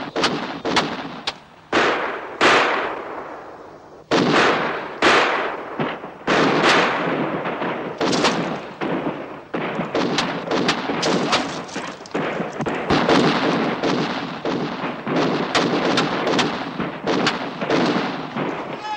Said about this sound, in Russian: По двери погреба стреляют